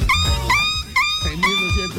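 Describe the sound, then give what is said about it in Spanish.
A dog yelps after being kicked: about four sharp, high-pitched cries in quick succession, each with a bright whining tone, with a low murmur beneath. “Patearon al perro.”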